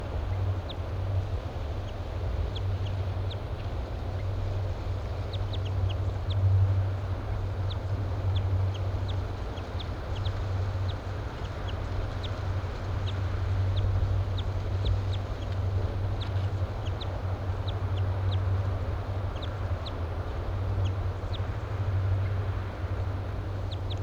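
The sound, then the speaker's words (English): Two birds chitter softly to each other, faint rapid ticks repeating throughout over a constant low drone. “regarding the dialogue between the two birds, just chitter, very soft.”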